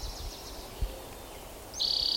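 An orange-crowned warbler sings in the background, a faint high trill at the start and a brighter, steady high note near the end, over low rumbling noise.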